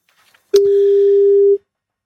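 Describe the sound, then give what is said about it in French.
A click, then a single steady low telephone tone lasting about a second as a call is placed, heard alone. “Allez, tentons le coup, je te laisse faire le numéro B1, on va voir ce que ça donne avec Philippe.”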